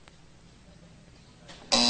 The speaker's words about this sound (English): You were pointing him out while the buzzer was hitting.